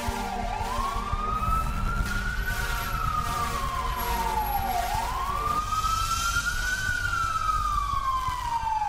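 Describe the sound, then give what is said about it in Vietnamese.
An ambulance siren wails as the vehicle rushes a patient to emergency care on New Year's Eve night. The tone sweeps slowly up and down through two long cycles, loud and steady throughout, with no voices. “Rồi sau đó là tiếng xe lao vùn vút đưa bà đi cấp cứu.”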